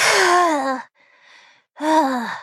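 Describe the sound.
A loud voiced gasp as held breath is finally released, its pitch sliding downward, then a soft airy breath and a second voiced gasp that also falls in pitch, with no words spoken.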